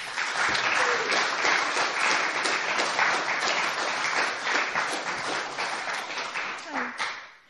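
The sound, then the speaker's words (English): An audience applauds at a poetry reading to welcome a poet, with dense, steady clapping for about seven seconds that tapers off at the end. “if we could everyone give a welcome to Flora de Falb”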